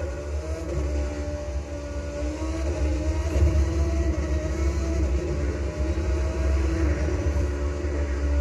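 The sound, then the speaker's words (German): A Formula 1 car driving fast on a video game test drive gives off a steady, loud, low engine drone that barely changes in pitch, with no voices. “Ich muss noch mal eine Probefahrt machen. Dieser Wagen, Alter, von 1 einfach geil.”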